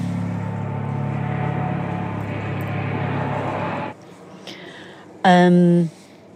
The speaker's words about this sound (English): You can tell I'm in the city, right? I think that's a helicopter going over.